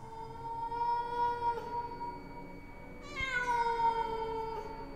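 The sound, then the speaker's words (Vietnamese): A cat meows from far away: two long, drawn-out, wavering cries, the second starting higher and sliding downward, steady and moderately loud with no voices present. “tiếng mèo từ xa xăm truyền đến”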